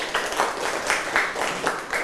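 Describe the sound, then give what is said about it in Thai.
Students in a classroom clap together for a classmate, a fairly loud, steady patter of many hands with a faintly pulsing rhythm throughout. “นักเรียนอ่ะเก่งมากครับปรบมือให้เพื่อนหน่อยครับ”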